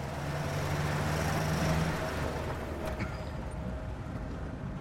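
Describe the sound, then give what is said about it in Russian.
A car drives along a road through a pine forest, heard as a quiet, continuous low engine and road rumble that stays even throughout, with no voices. “Машина едет по дороге через сосновый лес.”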